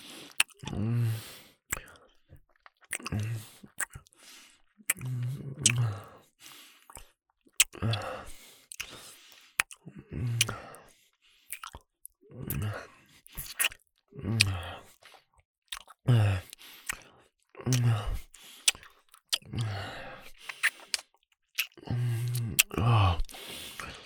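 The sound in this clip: A person chewing food makes quiet, wet chewing and smacking sounds in many irregular bursts, with sharp little clicks of the mouth between them and short pauses of near silence.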